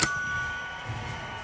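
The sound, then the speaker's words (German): A doorbell rings at an apartment: a single bright ding that strikes sharply, then holds a steady ringing tone that slowly fades over a second and a half at a moderate level, with no voices. “Gut, jetzt läuten wir da mal.”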